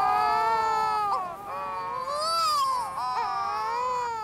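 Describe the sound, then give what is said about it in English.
Shearwaters perform an eerie wailing duet, sitting face to face on the ground with puffed-up throats, producing long, sustained, tonal wails that waver and bend up and down in pitch, sounding much like a crying infant. “shearwaters sit facing one another on the ground and puff up their throats to perform long duets of eerie wailing”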